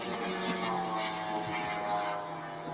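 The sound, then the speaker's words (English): Outboard boat motor running with its propeller turning, a steady, dense droning hum with a tonal whine that holds evenly, without break, from start to finish. “That's the sound of the outboard using that propeller.”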